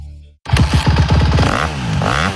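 A Honda motocross bike engine bursts into loud, rapid revving after a brief quiet start, its buzzing pulses surging and easing as the throttle works, with no talk.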